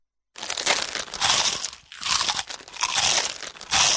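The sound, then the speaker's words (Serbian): Crunchy bites into a hazelnut-flavoured Banini snack: several dense, crackling crunch bursts separated by short pauses, loud and close, with no voices. “Mali hrskavi zalogaj, od sada sa novim ukusom lešnika. Njamb, banini.”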